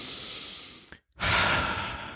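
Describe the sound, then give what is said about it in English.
A person takes a deep breath during a relaxation exercise: a long, soft inhale, a brief silent pause, then a louder, airy exhaling sigh that trails off. “Take a nice deep breath like this.”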